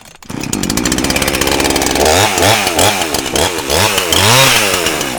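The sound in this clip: A chainsaw cuts into a Bradford pear log. The engine holds a loud, steady buzz, then settles into a rhythmic pattern of repeated rises and dips as the chain bites through the wood.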